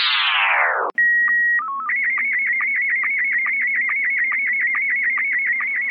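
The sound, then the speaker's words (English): A slow-scan television (SSTV) radio transmission on 14.230 MHz: a falling sweep, a brief gap, then a few steady held tones that give way to a long, fast and regular stream of many warbling pulses at an even, steady loudness. “You know that's the sound of slow-scan television, otherwise known as SSTV.”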